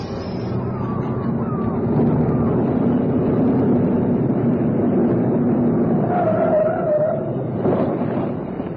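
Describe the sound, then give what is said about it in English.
A car driving toward a large house gives off a low, steady engine drone with road rumble that carries evenly throughout at moderate loudness. “even the house agent, who is driving John and Karen Penwarden towards the big house”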